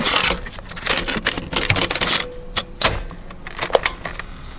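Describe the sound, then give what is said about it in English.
A cassette tape is handled and turned over in an irregular series of fairly loud plastic clicks, rattles and clatters, with no talk. “Let me just turn this tape around.”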